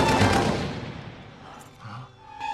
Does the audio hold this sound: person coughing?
no